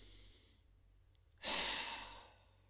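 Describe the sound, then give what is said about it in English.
A single slow breath during a guided breathing exercise: one long, airy exhale swells up, holds, then fades gently away, with only faint hiss before it. “let those three breaths come and go.”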